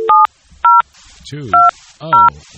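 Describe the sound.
Telephone keypad touch tones as a number is dialed: four short, bright two-pitch beeps in an uneven rhythm, loud and clean, with a low wavering voice briefly under the last two.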